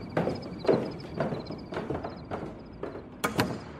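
Quick footsteps going down a flight of stairs, several firm, evenly spaced treads in a brisk rhythm, moderately loud with no talk.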